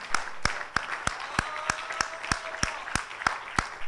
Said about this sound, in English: Oh, clap your hands right now to the Lord.